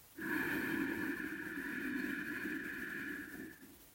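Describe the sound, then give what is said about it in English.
One slow, deep breath drawn in steadily for a few seconds, faint and heard alone. “Take a nice deep breath in with me.”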